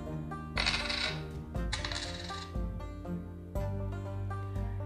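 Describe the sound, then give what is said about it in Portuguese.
Coins being put away into a small box: a few bright, loud clinking bursts rise over a steady tonal background, with pauses between them. “Então, Dona Baratinha guardou o dinheiro numa caixinha.”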